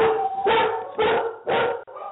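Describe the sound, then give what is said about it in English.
Dogs barking in a quick run of sharp, loud barks spaced roughly half a second apart, with no talk over them. “Oh, we got dogs.”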